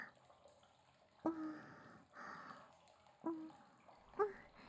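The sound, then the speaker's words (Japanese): Wet, soapy washing with foam and water: a few soft, splashy swishes rise out of a quiet background. “あわあわあわあわ。こんな感じかな。ええ、 洗っていきますね。”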